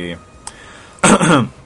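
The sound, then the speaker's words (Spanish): A person with a nagging cough lets out a harsh, rough cough, a loud burst of about half a second that comes after a brief fragment of speech. “válgame la tos que me está pegando”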